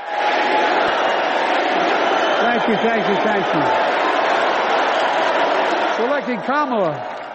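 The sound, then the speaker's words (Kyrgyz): A convention crowd greets Biden as he comes on stage with a dense, continuous roar of applause and cheering. Shouting voices rise above it in a few bursts, most clearly toward the end. “Сахнага чыккан Байденди чогулгандар алкыш айтып тосуп алышты.”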